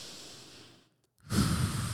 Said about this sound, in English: Before you head into that task, deep breath, brave breath,